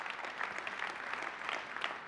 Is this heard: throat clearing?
no